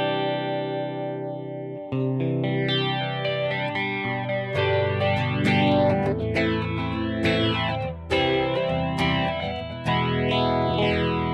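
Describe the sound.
A flanger pedal with its wobble control engaged produces a swooshing, jet-like sweep that rises and falls repeatedly over sustained, distorted notes, with the tones changing every couple of seconds.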